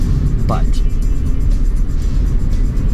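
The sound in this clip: Cars drive along a street, producing a dense, continuous rumble of road traffic with broad hiss and engine noise that stays at a steady, fairly loud level throughout.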